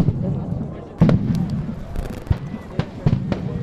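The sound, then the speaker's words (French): Stun grenades explode at a protest around a large farm water reservoir, with smoke in the air. A few sharp bangs cut through a continuous background of crowd voices. “il y a des panaches de fumée, des grenades assourdissantes se remettent à exploser.”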